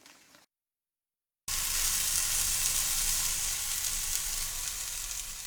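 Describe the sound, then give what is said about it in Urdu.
Loud, steady sizzle of chicken frying in a non-stick frying pan. It bursts in abruptly after a brief pause and keeps crackling evenly to the end, with no talking. “ایک تجویز یہ ہے کہ اسے naan stick frying pan میں پکا لیا جائے۔”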